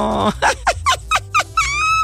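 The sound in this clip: A small dog gives a rapid series of high-pitched yips and whines, about half a dozen short, sharp calls ending in a longer whimpering tone.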